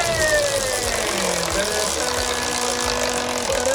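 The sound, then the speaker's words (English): A category prize wheel is given a big spin in a quiz game, producing a loud, continuous rapid rattling that runs steadily for the whole stretch. “let's spin the wheel here. Do you want a big spin or a little spin to choose the category?”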